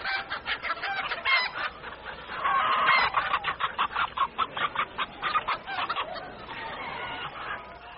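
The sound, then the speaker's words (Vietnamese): Chickens large and small cluck busily as they rush from all corners of a garden toward their owner to be fed: many short, rhythmic calls overlapping in a loud, steady stream with no talk. “Rào rào từ khắp các ngõ ngách, các chú gà lớn nhỏ chạy bổ, chạy đáo về chỗ bà chủ.”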